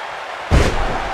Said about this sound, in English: now with a scoop slam